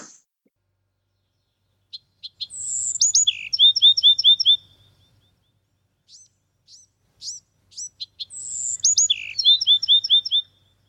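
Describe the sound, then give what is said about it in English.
Bewick's wren song: two bright, high phrases separated by a pause, each opening with a few short chips and running into quick, clear note series and trills, heard alone against silence. “I've been hearing this song a lot recently in my yard. The maker is the plucky Buick's Wren.”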